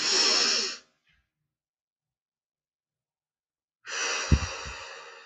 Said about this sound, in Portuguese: Mais uma vez, respira fundo. Conta até quatro e solta.